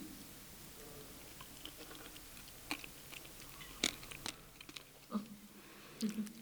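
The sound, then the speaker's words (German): Chewing on sandy ochre-red edible earth from Ghana: faint, gritty crunches and bites that come irregularly, a few of them slightly louder than the rest, over a quiet background. “Schmeckt sehr, sehr intensiv. Und sandig irgendwie. Also zwischen den Zähnen ist jetzt Sand, das wird so bald nicht mehr rausgehen.”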